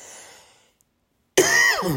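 A harsh, abrupt cough to clear a tickle in the throat. It comes suddenly after a faint stretch and a short silence, then stays loud and raspy to the end.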